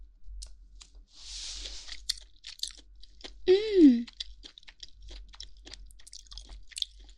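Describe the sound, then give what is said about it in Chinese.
Chewing on a bite of greasy roast meat: soft, wet crunches and clicks scattered through a quiet stretch, with a brief hum-like voice sound midway. “还抓了一大把呢，天哪，上面还流着油呢，这就是传说中的人油吗？好香，快吃一口。”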